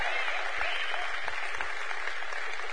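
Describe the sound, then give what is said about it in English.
Audience applause for a new singer joining a band, a steady, dense wash of clapping that holds at an even level from start to finish, with a few soft low thumps in it. “a big round of applause”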